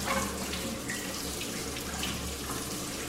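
Water runs from a tap as something is washed beneath it, a steady, fairly loud hiss and splash that continues alone for about three seconds.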